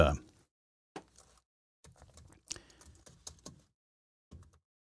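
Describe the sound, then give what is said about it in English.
Typing on a computer keyboard: faint short clusters of key clicks separated by brief pauses, some bursts quicker and denser than others. “I'll just type it in here.”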